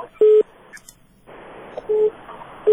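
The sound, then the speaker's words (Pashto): Short, fairly low telephone tones after a listener's call to a radio call-in line was cut off: three separate beeps, unevenly spaced, with faint line hiss between them. “متاسفانه دوی تلفن هم قطع شد”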